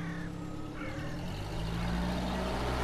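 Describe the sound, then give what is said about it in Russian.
Car engine rumbling as a car pulls off and drives away, a steady low drone that grows slightly louder toward the end. “Антон и Дима садятся в машину и уезжают.”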